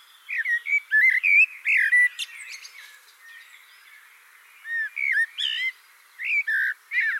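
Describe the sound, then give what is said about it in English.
Recorded blackbird song: bright, fluting whistled phrases with quick warbling high notes, delivered in two clear bursts separated by a quiet pause of a couple of seconds. “so I built an installation using my recordings of Blackbird songs.”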